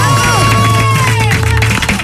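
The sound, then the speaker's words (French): A studio audience applauds and cheers. Dense clapping and crowd noise stay loud and continuous for the whole moment. “Les amis, je veux qu'on s'élève tous dans ce studio. Applaudissements pour Yuki Neige.”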